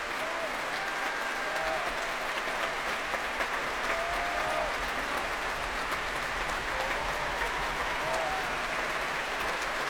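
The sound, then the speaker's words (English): Applause from a very large audience at the Albert Hall after an organ recital: a dense, steady wash of clapping that holds at an even level for the whole stretch, with no pauses or voices standing out. “Warmly welcomed by a very large audience here at the Albert Hall.”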